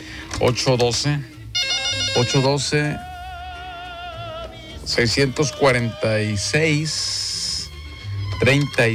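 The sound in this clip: Ringing on an outgoing telephone call to an ice seller: electronic ring tones come and go between stretches of people talking, including a sustained wavering tone in the middle and short high bursts.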